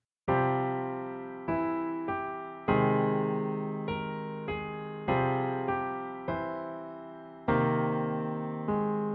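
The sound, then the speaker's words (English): A theme melody on piano: a slow series of single sustained notes, each struck clearly and left to ring and decay before the next, played alone at a moderate level. “So the full theme, as best it can be done on the piano, sounds something like this.”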